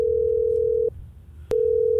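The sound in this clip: Steady, low telephone dial tone as a call is being placed, broken by a brief gap of about half a second before the same even hum resumes, moderately quiet and without talk.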